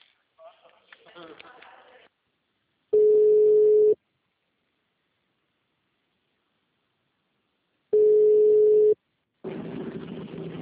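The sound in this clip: Ringing tone of an outgoing telephone call: two steady, mid-pitched beeps of about a second each, spaced several seconds apart, with speech before the first tone and after the second.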